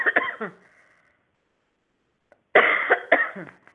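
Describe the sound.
Coughing to clear a tickle in the throat: two bursts of a few harsh coughs each, separated by a quiet pause. The second burst is longer and louder.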